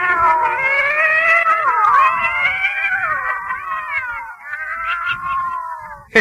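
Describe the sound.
A cat's long, loud, drawn-out yowl, continuous and wavering in pitch for several seconds, ending with a brief sharp click.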